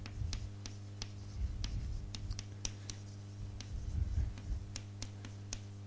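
Pen scratching on paper as the answer to an equation system is written down in a maths lesson: many short strokes and light taps in an irregular rhythm, fairly quiet, with no talk.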